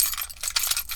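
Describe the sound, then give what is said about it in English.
Car keys jangle in a brief, bright metallic jingle of rapid clinks lasting about a second, fairly faint and heard alone. “is the sound of my car keys.”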